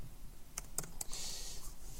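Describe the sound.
Typing on a computer keyboard while entering code for an automaton: a few crisp, faint keystroke clicks close together, followed by a soft steady hiss.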